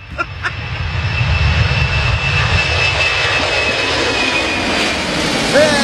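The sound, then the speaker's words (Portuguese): An airplane flying overhead makes a loud, steady engine roar that holds for about six seconds with a constant droning hum and no clear rise or fall. “Outro avião.”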